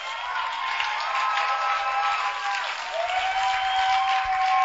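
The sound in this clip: A church audience applauds in a continuous, dense wash of clapping that holds at an even, fairly loud level throughout.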